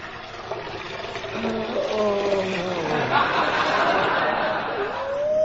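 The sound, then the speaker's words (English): Cold water is poured into a basin, a steady rushing splash that runs throughout while voices talk and chuckle over it. “Which reminds me, pour some more cold water in the basin, will you, dear?”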